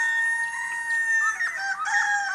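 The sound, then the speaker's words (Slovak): A rooster crows in one long, high, tonal call that wavers toward the end, heard alone with no talk. “Kohútik, pridaj, solo máš.”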